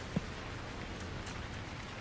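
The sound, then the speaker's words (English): Heavy rain pours down in a steady, even hiss that stays fairly quiet and unbroken, with one brief soft knock near the start. “It is tipping down with rain.”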